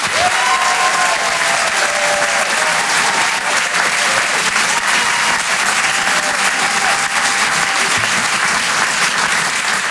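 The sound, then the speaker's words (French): Audience applause at a comedy club: dense, loud clapping that holds steady for the full ten seconds without a pause or fade. “On peut l'encourager, faites du bruit s'il vous plaît pour Wari Nichen.”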